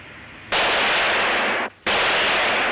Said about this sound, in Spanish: El gendarme se esconde tras un coche y dispara a Marcel.